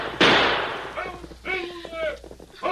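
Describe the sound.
A single gunshot rings out at escaping thieves in a radio drama: one sharp, loud burst near the start that decays quickly, followed by voices.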